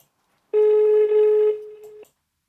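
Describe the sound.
A single loud, steady telephone tone sounds for about a second and a half while a call is placed, then stops abruptly, with silence before and after.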